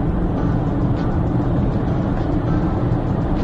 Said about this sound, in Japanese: 高速道路での録音っていうのは多分初めてだと思うんですけども、意外と声が拾えてるのかな